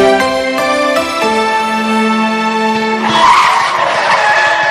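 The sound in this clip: A car brakes hard and its tires skid, a long, loud, steady squeal that breaks into a rougher, noisier scrape for the last couple of seconds.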